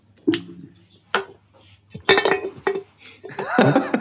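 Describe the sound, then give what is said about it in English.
Beer bottles and drinks being opened and clinked together, heard as a few sharp glassy clinks and knocks spaced across the moment with short quiet gaps between them. “we are going to crack a beer”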